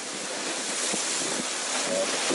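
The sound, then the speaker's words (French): A continuous loud roar of wind and waves around a boat in the middle of the Red Sea in winds of roughly 35 knots, a dense rushing noise with no breaks. “Voilà, je suis au milieu de la mer Rouge.”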